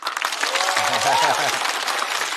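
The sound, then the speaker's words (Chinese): Audience applause for a young man at a dance session, dense and steady, with a few voices calling out briefly over the clapping midway. “我就在没有取得任何成就的前提下先收获了一轮掌声”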